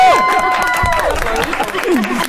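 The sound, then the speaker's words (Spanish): Studio audience on a Mexican talk show cheers and applauds the cast of Intensamente 2: loud whoops and shouting voices rise over a bed of clapping and crowd noise. “Aplauso, chicos. ¡Sí!”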